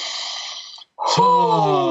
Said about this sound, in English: it's time for each and every one of us to take a moment, breathe in deeply.